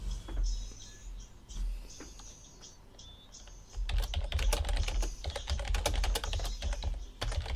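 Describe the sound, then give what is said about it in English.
Typing a question into a live chat window on a computer keyboard: after a quieter opening, many rapid, crisp key clicks come in dense bursts. “Hang on, I've typed in the question again.”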